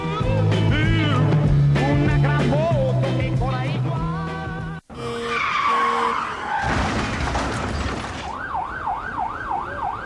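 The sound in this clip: Tires screech in a long, harsh skid during a traffic accident, following a stretch of loud music and giving way to a wailing emergency siren that rises and falls.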